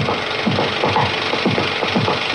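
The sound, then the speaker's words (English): Scraping images off film by hand, one frame at a time: a steady series of short, rasping scratches repeating at an even pace over a constant dry rubbing noise. “I can draw or scrape away images here. And as soon as I scrape away a few, maybe sometimes just one that I scrape, I can run it.”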